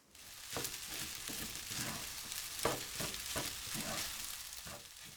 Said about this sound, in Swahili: ongeza sosi ya soya kijiko kidogo pembeni mwa sufuria. Kisha koroga kila kitu vizuri.